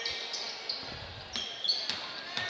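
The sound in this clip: A basketball is dribbled on the court during a boys' high school game between Exeter and Elizabethtown. Several sharp, fairly quick bounces ring out over crowd noise and background voices.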